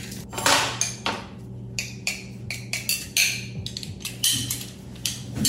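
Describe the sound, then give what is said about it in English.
Metal clinks and clatters as a garlic press crushes three or four garlic cloves. Many sharp, irregular hits ring out over a steady low hum. “You could either cut up the garlic by hand or you could put it into the garlic press. About 3 or 4 cloves should do it.”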